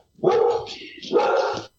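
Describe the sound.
Two drawn-out, yelping dog barks, each about half a second long, separated by a brief pause and heard clearly on their own.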